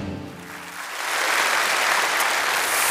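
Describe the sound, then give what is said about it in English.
Applause from a church audience welcoming a speaker to the stage. It starts after a brief voice and swells into steady, dense clapping that holds at full strength to the end. “Would you put your hands together and help me today welcome the voice of Pine Lake for today, Graham Inman.”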